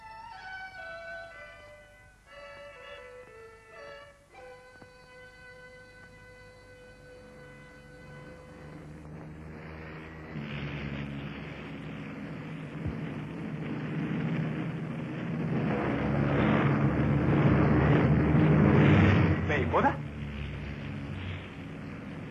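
Military aircraft bearing Nationalist insignia arrive one after another, diving to drop bombs: descending whistling tones come first, then a broad rumbling roar that swells steadily louder and stays heavy toward the end, with no voices.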